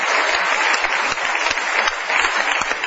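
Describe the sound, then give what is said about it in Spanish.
Loud applause for a guest at a table: a dense, steady clatter of many hands clapping that carries through the whole stretch without a break. “Un aplauso muy grande”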